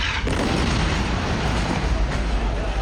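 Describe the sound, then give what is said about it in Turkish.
Explosion from an airstrike on a house in a refugee camp, caught on an amateur camera: a loud, dense roar of blast noise and rumble holds steady for the whole stretch. “Bölgede yaşanan patlama anı amatör kameralara yansıdı.”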